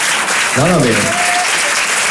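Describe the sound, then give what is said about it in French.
Stand-up comedy audience in a hall of about a hundred people breaks into applause: dense, steady clapping throughout, with a voice speaking briefly over it early on. “Salle de 100 personnes, les applaudissements sont venus que des femmes au départ.”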